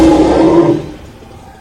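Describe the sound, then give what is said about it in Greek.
A dinosaur roar effect for a touring Jurassic Planet dinosaur show: one loud, low, growling roar that holds strong for under a second, then trails away into a rumbling decay. “ειδικά εφέ και διαδραστικές εκπλήξεις για όλη την οικογένεια. Jurassic Planet. Η επιστροφή των δεινοσαύρων.”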